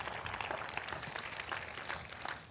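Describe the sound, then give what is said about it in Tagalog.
An audience applauding during a church service, in dense, even clapping that holds steady for the whole clip at a fairly quiet level. “Palakpakan po natin yung Panginoon.”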